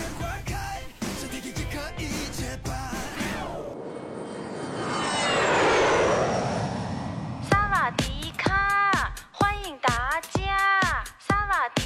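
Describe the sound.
A jet airplane flying to Bangkok, Thailand, swells into a broad, rushing roar that peaks and then eases, with music before it and voices after.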